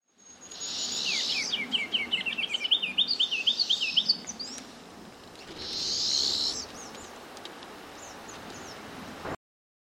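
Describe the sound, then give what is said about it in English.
A sharp-shinned hawk calls in a rapid string of sharp, high kek notes for about four seconds, followed after a pause by a second, shorter high-pitched burst over a faint background hiss. “Sharp-shinned hawk.”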